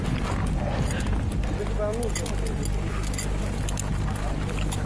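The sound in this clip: Horses trudge through deep snow on a mountain trek, their muffled steps blending into a constant noisy background while people talk throughout.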